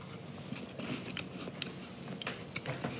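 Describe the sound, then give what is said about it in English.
Someone bites into a date pastry that looks like a chocolate Fig Newton, making faint crunching and chewing sounds. Many small, soft clicks and crackles run through the quiet clip. “That was a solid bite. I like it. It doesn't taste datey.”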